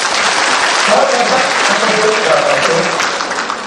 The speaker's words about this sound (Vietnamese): Quý vị vỗ tay đi.